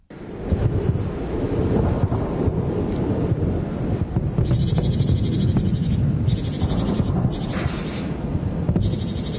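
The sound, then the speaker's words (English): Wind blowing through a private garden outside Tehran: a steady, loud low rumble buffeting the microphone, with a thin high-pitched hiss layered over it from midway on. “So this was recorded in a private garden outside of Tehran this year.”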